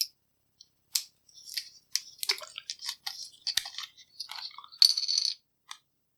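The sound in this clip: A drink container being opened, heard as a quick series of sharp clicks, snaps and plastic-like crackles of varying loudness, with no talk.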